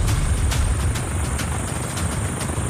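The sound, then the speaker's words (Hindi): An army helicopter lands at a Nepal Army base used for rescue flights, with a steady, loud rotor roar and a rhythmic thumping running through it. “List के अलावा यहाँ खड़े हर शख्स की नजर army के हर अगले land करते हेलीकॉप्टर पर रहती है,”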